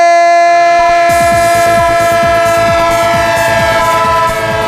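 A train sounds its horn in a sustained, multi-tone chord over the steady rhythmic clatter of wheels on rails. The horn and clacking stay loud and continuous throughout.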